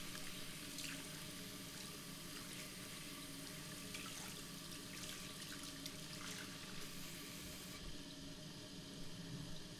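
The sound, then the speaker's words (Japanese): Tap water runs steadily as a child rinses soap foam off their hands, a faint, even splashing stream that continues without pause. “それじゃあお水で流してジャバジャバ、しっかり泡流してね。”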